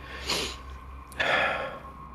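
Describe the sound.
A person gasps to catch their breath, making two breathy inhalations. The second is longer and rougher. Both are fairly soft, with no talk.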